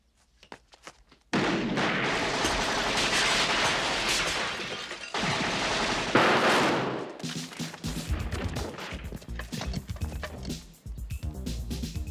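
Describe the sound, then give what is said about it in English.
Machine gun fire rips through a police shootout in two long, loud volleys of dense, rapid shots, followed by a stretch of sharper, scattered bangs and crashes. “Yeah, these guys are serious. I hate machine guns.”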